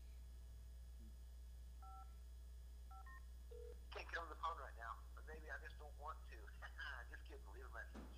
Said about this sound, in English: your voicemail cut me off